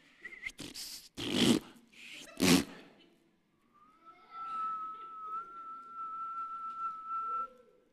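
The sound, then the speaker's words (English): A person whistles one long, steady, clear note held for several seconds. It comes after a few loud, noisy bursts, with a brief higher whistle heard near the start. “and now it's natural for me to whistle. And now people know me as a whistler.”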